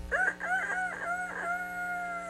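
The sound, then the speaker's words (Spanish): A rooster crowing: one drawn-out, wavering cock-a-doodle-doo call rising from a loud opening and holding steady before trailing off. “Y no solo el cucú, también el gallito está cantando para animarte a que te levantes.”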